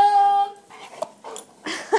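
A dog whimpers during a game of fetch with a slobbery rubber Kong toy. A high, steady whine is followed by shorter snuffling whimpers and breaths, ending in a couple of quick squeaky yelps.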